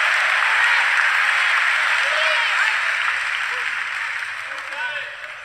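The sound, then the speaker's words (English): A church audience applauds and cheers. Dense, continuous clapping and crowd noise start loud, then gradually fade toward the end. “Transformation Nation, make some noise. People in this building, make some noise.”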